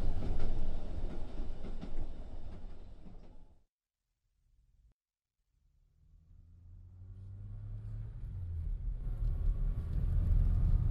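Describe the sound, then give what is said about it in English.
A passenger van full of men drives along a country road toward an isolated cabin. Its low engine and road rumble drops away to near silence, then builds steadily back up to a loud, continuous drone. “a passenger van full of men of various ages, driving along a country road toward an isolated cabin.”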